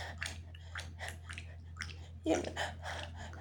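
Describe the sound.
Wet, slippery squelching sounds come during sexual activity. They form a faint series of rhythmic, sticky pulses repeating at a fairly even pace, with one louder, sharper burst partway through.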